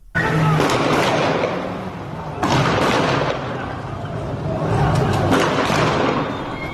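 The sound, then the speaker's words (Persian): Machine-gun fire rattles through the city streets of Iranshahr, Iran, in loud, dense bursts of crackling shots that swell and ease over a continuous harsh roar. “رگبار مسلسل ها، رگبار گلوله هایی که به سوی مردم شلیک شده منتشر شده، در ویدیوهای مختلف ما صدا رو میشنویم از ایران شهر.”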